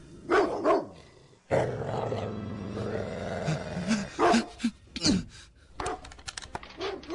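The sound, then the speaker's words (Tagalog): A dog barking and growling at a person in a stalled car in a residential subdivision. A few sharp barks lead into a long, low, sustained growl, followed by a burst of many fierce, snapping barks. “Saan galing tong asong to? Doggy, huwag mo akong lapain.”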